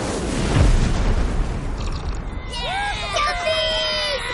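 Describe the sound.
A building explodes in an animated comedy film scene, opening with a deep booming blast and rumbling noise, then giving way to a hubbub of high, chattering voice-like sounds.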